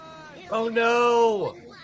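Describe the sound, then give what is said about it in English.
A human voice imitates a cat coughing up a hairball: one loud, strained, gagging retch that holds a steady pitch, then drops sharply as it cuts off. “I'm coughing up hairballs every now and again. Just like that.”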